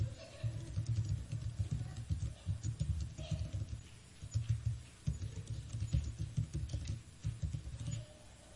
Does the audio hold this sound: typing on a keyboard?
yes